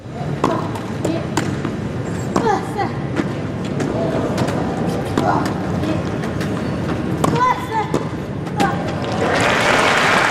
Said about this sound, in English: Now, there are no specific clues in the sound there beyond the obvious, but that is tennis played by athletes who use wheelchairs, or not, according to Paralympian Brad Parks.